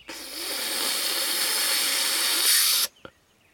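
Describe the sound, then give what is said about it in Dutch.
A person blowing as hard as possible at lit birthday candles. One long, forceful breath makes a steady, loud hiss that lasts nearly three seconds, then cuts off abruptly and is followed by a faint click. “Dan blaast ze nog een keer zo hard ze kan.”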